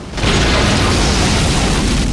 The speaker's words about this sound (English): Miller looks out to see the Lewis and Clark being blown to pieces.